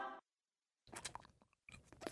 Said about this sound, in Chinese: 你吃相可不可以好一点？你是饿了几天呢你？